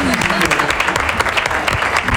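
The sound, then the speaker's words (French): An audience at a debate event applauds a speaker, producing a continuous crackling layer of many hands clapping at a fairly loud, even level, with voices speaking over the applause. “On applaudit pas. Applaudissez pour Mika, s'il vous plaît.”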